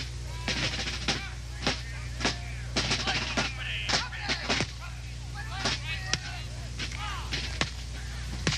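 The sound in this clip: Musket gunfire in a battle as British troops fire into enemy ranks: many sharp, irregular cracks and pops, some clustered and some spaced apart, over a steady low hum.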